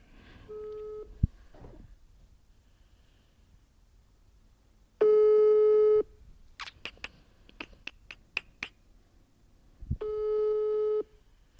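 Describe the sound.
Telephone busy signal heard while dialling a number: three loud, steady, humming tone bursts, with a few sharp clicks and ticks in the gaps between them.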